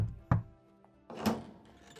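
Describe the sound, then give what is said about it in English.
A knock at the door of a luxurious palace room: brief dull thuds, one sharp and one broader, standing out against a quiet background. “But before you can set down your bags, there is a knock at your door.”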